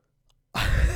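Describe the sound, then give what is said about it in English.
A deep, dramatic breath breaks a half second of near silence, a loud, airy, rushing inhale that fills the rest of the moment. “That was a very deep, dramatic breath.”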